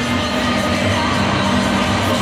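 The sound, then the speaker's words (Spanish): Loud, continuous crowd roar from Argentine fans filling a huge stadium in Atlanta, Georgia, giving an ovation as a star player appears on the big screen. The dense cheering holds steady throughout with no distinct peaks. “La ovación porque aparece Messi en la pantalla del estadio.”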